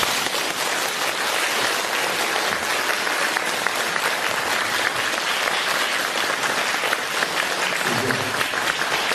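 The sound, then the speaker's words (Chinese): Audience applause at the close of a lecture, a steady, dense wash of clapping that holds at an even level for about nine seconds. “你看看呢，人不多，但是我听这个掌声就是几千人的掌声。”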